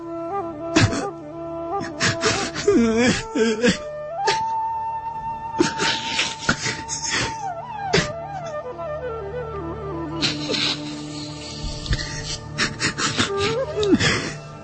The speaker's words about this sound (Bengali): এই কান্না যেন একদিন হাসি হয়ে আসে